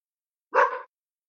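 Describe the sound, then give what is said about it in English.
A pet dog gives a single short, sharp bark, loud and mid-pitched, with silence before and after it. “sorry, my dog is after us.”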